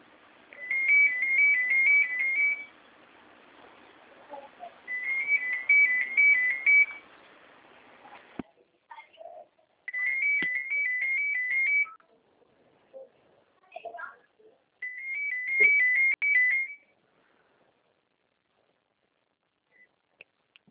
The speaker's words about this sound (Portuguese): eu tenho que fazer essa ligação aqui também. Só mais um momento.